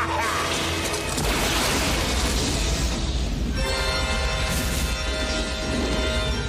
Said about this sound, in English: In one of the Batman comic books, he uses his cape as a shield for fire. I use that as a gimmick here for him to withstand that blast.